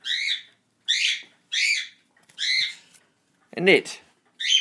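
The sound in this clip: A pet baby bird in its cage gives about five harsh, high squawking calls, evenly spaced with short silent gaps. A person speaks briefly between the calls.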